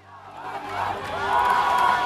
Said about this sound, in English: While ecstatic crowds celebrate on the streets, a man sits on another man's shoulders and waves the Palestinian flag.